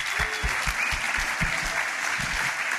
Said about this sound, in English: Congratulations, give those folks a hand.